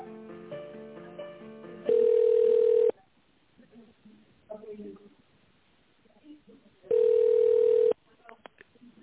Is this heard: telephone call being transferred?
yes

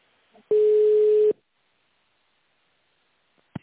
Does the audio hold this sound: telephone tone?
yes

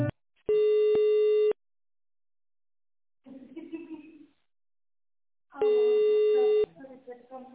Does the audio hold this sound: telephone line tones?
yes

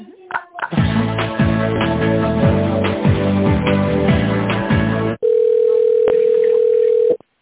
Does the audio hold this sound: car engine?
no

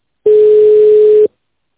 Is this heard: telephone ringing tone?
yes

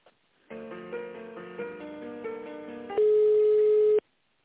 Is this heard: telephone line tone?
yes

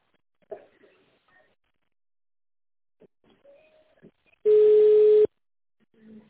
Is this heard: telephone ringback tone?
yes

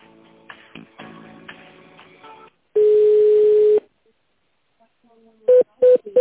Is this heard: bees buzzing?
no

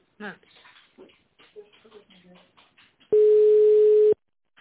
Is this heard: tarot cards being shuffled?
no

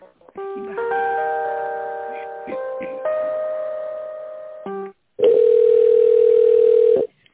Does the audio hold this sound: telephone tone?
yes

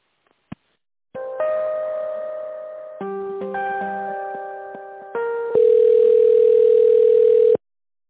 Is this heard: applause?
no

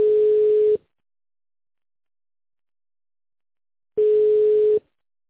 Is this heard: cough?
no

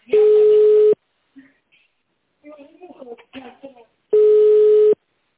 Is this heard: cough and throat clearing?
no

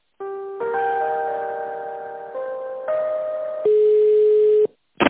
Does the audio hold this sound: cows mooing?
no

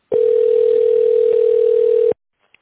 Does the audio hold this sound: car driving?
no

